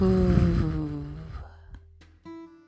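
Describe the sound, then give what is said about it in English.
A deep, voiced audible exhale through the nose during a guided breathing exercise. It starts loud and fades steadily over about a second and a half, followed by faint, quiet sounds. “One more deep inhale and audible exhale.”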